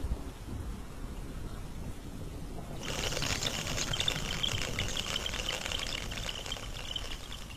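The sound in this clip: Storm rain breaks into a loud, dense hiss about three seconds in, after a quieter opening, with a low rumble of thunder underneath that continues as the downpour keeps on steadily.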